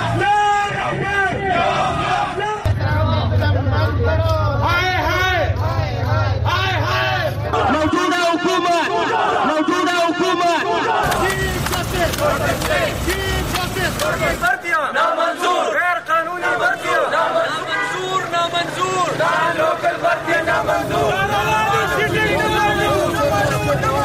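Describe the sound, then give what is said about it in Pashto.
Loud protest crowds in Pakistan demanding their rights: a dense mass of raised voices chanting and shouting throughout, with shifting sections of rhythmic, harmonized chanting. “دا په پاکستان کې د مختلفو هغو مظاهرو غږ دی چې خلکو د خپلو حقونو د غوښتنو لپاره کړی دي.”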